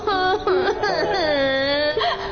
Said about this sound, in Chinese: 哎，你怎么又哭了？